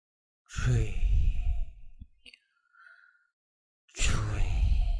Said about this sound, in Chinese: 因为我们呼气的时候是用口嘛，口往外呼气嘛